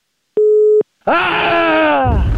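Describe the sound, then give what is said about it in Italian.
A steady telephone busy-signal beep sounds once after the caller hangs up. It is followed by a loud, drawn-out harmonic sound that slowly falls in pitch. “ha buttato giù il telefono.”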